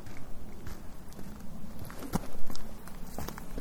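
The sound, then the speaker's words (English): Footsteps cross a wiggling log about 20 feet long that spans water outdoors, giving a string of irregular, fairly soft thuds and creaks, with one sharper knock near the middle. “Walking across the water on this log. The log is pretty secure, but it wiggles a little bit.”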